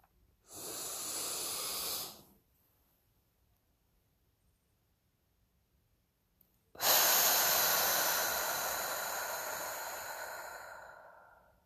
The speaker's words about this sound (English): Okay, so let's do this together. In for 4, hold for 7, exhale for 8.